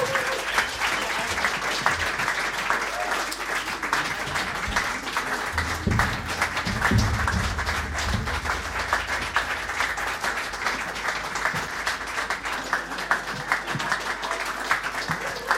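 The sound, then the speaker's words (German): Warm applause from an audience: dense, steady clapping that holds at an even level for the whole stretch, with no voices over it. “Vielen Dank für diesen sehr warmen Applaus.”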